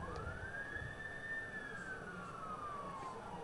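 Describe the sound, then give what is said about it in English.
An ambulance siren passes outside a ballpark beyond the right field wall, one long wail that rises and then slowly falls, heard faintly over a steady, dense background roar. “Another ambulance, northbound on Larch, beyond the right field wall.”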